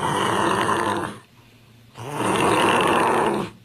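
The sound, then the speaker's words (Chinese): Loud snoring from a sleeping man: two long, rasping breaths, each lasting over a second, with a brief quiet gap between them. “周世贵睡着了，大声呼噜了，睡得还挺香”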